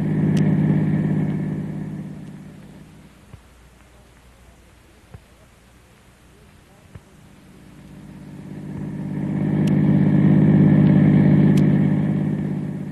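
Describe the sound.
A car drives off, its low engine rumble fairly loud at first, easing to a quieter drone with a few small clicks, then swelling again into a heavy, sustained rumble.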